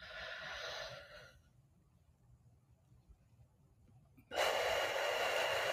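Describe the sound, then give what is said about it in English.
A deep breath: a soft, breathy hiss of air, a quiet pause, then a much louder sustained rush of breath to the end. “So we're going to take a big, deep, deep, deep breath. Strong as far as you can go.”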